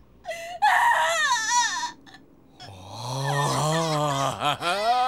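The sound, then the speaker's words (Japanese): A child cries and wails in anguish: a strained, quavering burst, a brief pause, then a long sustained wail with wavering, sobbing pitch. “子供の泣き声ってのは、絶望に駆られた女子供の声に勝るものはない。”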